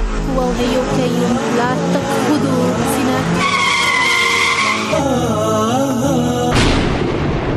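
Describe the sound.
Tires screech as a car skids out of control with its steering wheel stuck. A long, loud, wavering squeal rides over a continuous heavy roar throughout.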